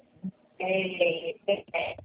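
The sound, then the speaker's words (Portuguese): Electronic telephone tones while a call is being placed, heard as a few steady buzzy bursts broken by short gaps, after a small click at the start. “Fazendo ligação, não estou pegando a internet.”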